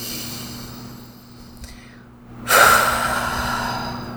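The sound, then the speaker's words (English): A single deep breath taken during a guided self-tapping exercise, starting suddenly after a quiet stretch and continuing as a steady, fairly loud rush of air that holds to the end, with no talking. “Deep breath.”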